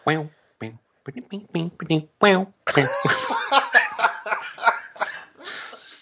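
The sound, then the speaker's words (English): A coughing fit mixed with laughter, with a few short harsh bursts first, then a long strained stretch of coughs and laughing blurring together, loud and breathy. “I'm gonna faint from the coughing so much. The cough laugh is tough.”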